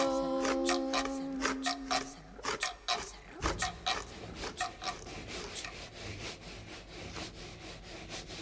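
A hand saw cuts wood in a children's song, brief musical tones giving way to many rhythmic back-and-forth rasping strokes that continue steadily to the end.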